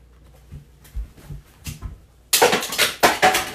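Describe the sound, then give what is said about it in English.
A stir stick stirring coffee in an AeroPress, with faint soft taps at first, then loud, rapid clattering strokes through the second half. “I got my trusty AeroPress stir sticks. We're gonna go 20 times quickly here.”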